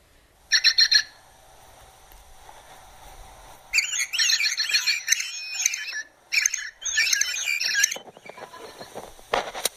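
Birds sing early in the morning, with bursts of high, rapid chirping and trilling that come and go in clusters, some louder than others, over a faint, quiet background.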